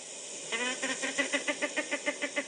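A hen clucking as she herds her chicks: a quick, steady run of short, even calls, moderately faint over a constant hiss.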